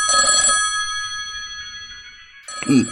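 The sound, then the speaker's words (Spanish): A telephone rings twice with bright, metallic bell trills separated by a quiet pause of about two seconds. “Deberán excusarme un momento. Debo atender esta llamada. Regreso enseguida.”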